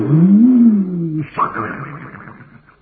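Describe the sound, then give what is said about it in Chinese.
A voice imitates a tiger's roar: a long, low, growling call that swells and eases, followed by a shorter, rougher second burst that fades out. “这老虎一声叫”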